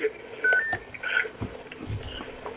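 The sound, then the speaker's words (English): Touch-tone keypad beeps as someone on a conference phone line presses star 6 to mute: a few short, clear electronic tones over faint background noise. “hit the mute button or star 6 to mute your phone so we can hear Imam Sadiq”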